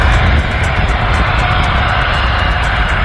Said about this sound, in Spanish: Es un Gulfstream 450, un birreactor equipado con dos motores Rolls Royce. Suena así.